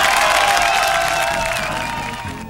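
A studio audience of a television program, several hundred people, claps and cheers: a dense, steady wash of applause with some shrill cheering on top, slowly tapering in loudness over about two and a half seconds.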